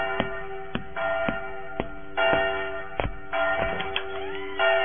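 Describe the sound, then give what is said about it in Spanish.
Church bells tolling for a death, many strikes in a quick, steady rhythm, each ringing on with sustained overlapping metallic tones, fairly loud and heard alone. “¿ya escuchó que están doblando las campanas?”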